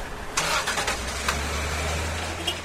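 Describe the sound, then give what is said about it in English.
Vehicle engines run as port workers drive toward the docks, a steady low rumble with a few brief louder surges and no talk. “And watched port workers drive their vehicles towards the docks.”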